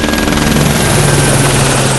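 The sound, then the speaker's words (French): A light, fast firefighting helicopter flying low near the ground over a wildfire throbs loudly with a steady rotor chop and engine whine, unbroken and with no voices. “Là, on est sur un type hélicoptère léger qui est très rapide, destiné sur l'éclosion et sur le feu naissant. On se rapproche au plus près du sol”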